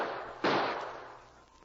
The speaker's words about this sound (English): You ready to take the lead? Maybe. Shoot a couple of times more.